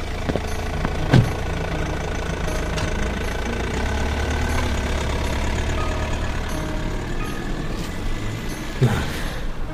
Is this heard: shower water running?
no